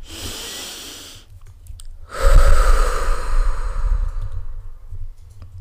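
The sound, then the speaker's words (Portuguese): A calming breathing exercise: a softer breath, a short pause, then a longer, louder breath pushed out through the mouth. The whole sequence is slow and airy, with no talking. “Inspirar pelo nariz é expirar pela boca. Porquê pela boca? Porquê colocar o ar para fora pela boca?”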